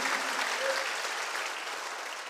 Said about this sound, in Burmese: လက်ခုပ်တီးလက်ဖျားကိုချီးမွမ်းကြရအောင်